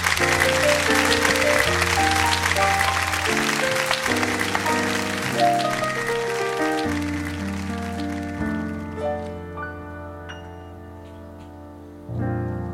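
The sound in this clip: Audience applause greets a singer at a live variety show. Dense clapping rides over a band's musical intro and fades out after about eight seconds, leaving the music alone.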